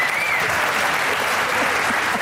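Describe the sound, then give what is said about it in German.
Applause from a theater audience, a dense, even clatter of many hands clapping that holds steady at a moderate level throughout. “vielen Dank, das ist ein Applaus”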